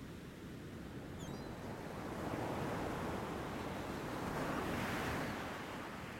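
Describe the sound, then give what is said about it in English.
Ocean waves washing onto a sandy beach make a soft, steady hiss and rumble that swells a little louder midway and eases off again, with no other sounds. “Now you're completely content to lie back, relax, and listen to the sound of the waves.”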